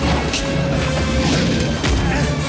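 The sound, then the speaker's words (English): A creature's jaws crunch through a thrown lectern in a loud, dense burst of smashing and crushing noise that continues throughout, with a couple of sharper cracking hits rising above it. “hurls a lectern at the creature, which crunches through it with its powerful jaws”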